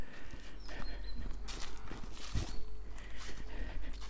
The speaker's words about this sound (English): I'm walking through Hartford Wood.